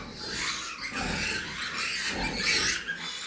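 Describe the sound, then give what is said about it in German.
Shrill squealing from two-week-old piglets fighting over a sow's teat, a loud and continuous chorus of overlapping squeals that keeps going for the whole stretch. “Jetzt streiten sie sich um die Zitze. Wenn halt die Ferkel größer werden an der Muttersau, möchten sie auch mehr Milch und dann gibt es schon mal einen, einen Kampf um die Milchbohr.”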